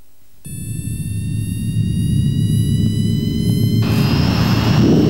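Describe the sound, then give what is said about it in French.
A jet airliner takes off for Pointe-à-Pitre with a loud, steady engine roar under high, thin whining tones. The roar builds gradually and stays loud to the end. “Les passagers à destination de Pointe-à-Pitre sont priés d'attacher leurs ceintures. Décollage immédiat. Passengers leaving for Pointe-à-Pitre are asked to fasten their seat belts. Takeoff is immediate.”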